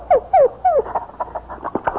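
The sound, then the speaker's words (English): A dog whimpers and yips, giving three falling, whiny yelps and then a quicker run of shorter, fainter yips. “Say, you've got a dog and a beauty.”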